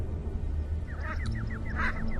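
Calls of a common shelduck mother defending her young from attacking crows: a rapid series of short, repeated honking notes over a steady low background rumble.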